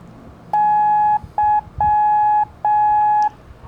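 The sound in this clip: Morse code beeps spelling the letter Y: four steady, mid-pitched pure tones in a long, short, long, long pattern, each cleanly separated by brief silences.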